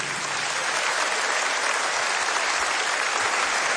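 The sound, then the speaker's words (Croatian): An audience applauds an orchestra at a music show in Istria, Croatia, with dense, continuous clapping that holds an even, strong level throughout and no voices over it. “aplauz za najbolji orkestar na Istri i Kvarneru, Čisti luksuz.”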